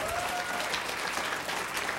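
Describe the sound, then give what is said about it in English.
A church audience claps during a worship service, giving a dense, steady wash of applause that stays even and fairly soft from start to finish. “Now give God a clap for the glory that he's put in you.”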